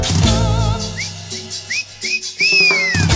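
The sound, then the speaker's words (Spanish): Whistling along to lively cumbia music, with a few short, bright upward-swooping whistles rising over the steady band accompaniment. “Si vos te plantás, si vos sos cumbiero, tenés que silbar.”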